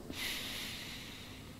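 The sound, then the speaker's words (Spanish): A deep breath during a guided group breathing exercise: a faint, soft, airy hiss that swells quickly and then slowly eases off over about a second and a half. “Vamos a respirar tres veces. Profundo.”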